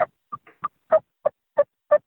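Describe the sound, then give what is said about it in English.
Soft turkey clucks come as a series of eight short, evenly spaced notes, one of them fainter than the rest, with quiet gaps between them and no talk. “Maybe give him a soft cluck or a purr. I like to do, you know, cluck and a purr and just a little soft something or other, or maybe just a real soft,”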